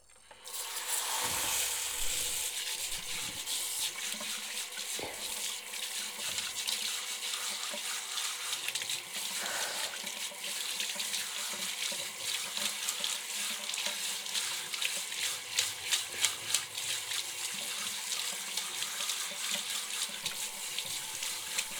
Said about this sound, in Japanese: そろそろシャワーで泡泡流すよ。 目閉じててくださいね。